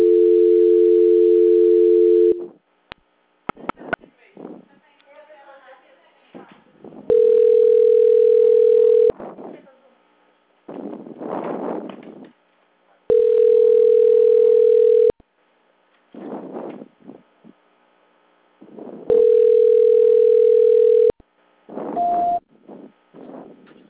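Telephone line tone during a call transfer: four steady, mid-pitched tones, each about two seconds long, recurring roughly every six seconds, with faint crackly line noise in the gaps and a brief short beep near the end.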